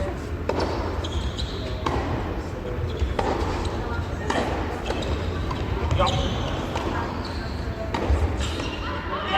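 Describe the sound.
A tennis ball is struck during a match-point rally that includes volleys, including a backhand volley, in a women's match. A few sharp, hollow hits are spaced irregularly over steady background noise.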